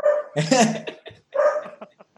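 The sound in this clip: A person imitating a dog, giving rough, barking woofs as a playful greeting: two loud bursts of yapping followed by a few shorter, softer yips, delivered alone.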